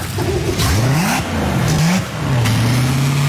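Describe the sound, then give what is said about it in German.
A boat engine with a Z-drive runs during a hot-water engine flush, a loud mid-pitched motor drone whose pitch rises and falls a few times as it revs. “Ich habe jetzt das Wasser angehängt, das Heißwasser. Und jetzt gehe ich ins Schiff rein und lasse dann laufen. Und dann hört man auch einmal, wie das ein bisschen tönt.”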